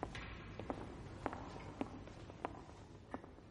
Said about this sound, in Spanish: Ahora Aristides camina por el teatro que ya está vacío de público.